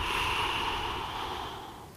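A slow, steady exhale during a breathing exercise meant to empty the lungs: one long airy hiss, loud at first and gradually fading over about two seconds.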